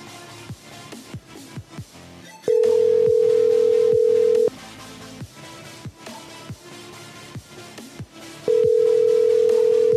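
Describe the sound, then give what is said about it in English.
Ringing tone of an outgoing phone call: two long, steady, pure tones of about two seconds each, separated by a four-second gap. They sit loud over a busy, rhythmic background of clicks and beats, and no one speaks. “So when I call back, don't answer because your voicemail is really funny and I want to hear it again.”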